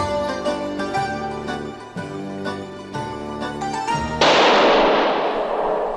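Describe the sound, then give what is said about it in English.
A single loud gunshot cracks out over music near the end, and its noisy blast lingers and fades slowly. “That was the shot that killed Paul Citron. He died in a sewer in Vienna. Perhaps that was the shot.”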